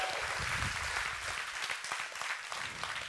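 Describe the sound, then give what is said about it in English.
An audience at a church service applauds to welcome a pastor to the stage, with dense, steady clapping that carries on without a break. “So you guys, without further ado, come on, put your hands together.”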